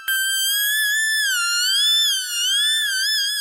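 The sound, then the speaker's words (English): A synthesizer keyboard note bent with the pitch wheel: a bright, steady electronic tone that glides smoothly up and down in gentle waves, loud and alone without any attack or break. “So the thing you want to keep an ear out for is the sound of the pitch wheel. The pitch wheel is a little knob that's to the left of the piano keyboard”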